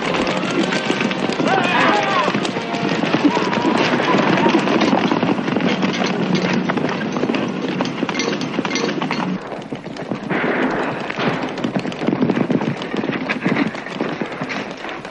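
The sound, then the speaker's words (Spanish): Cavalry horses galloping as a captain rides off with a bugler and eight men in a western army setting: a dense, loud, continuous clatter and rumble of hoofbeats that holds steady throughout. “el capitán parte al galope con el corneta y otros ocho hombres”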